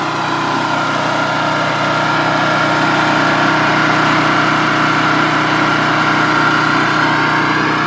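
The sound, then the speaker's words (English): A portable generator engine runs with a steady, loud, unbroken drone that holds at an even level from start to finish, with no talk over it. “This is going to get noisy as I go by the generator, which, by the way, we have changed to Tommy's.”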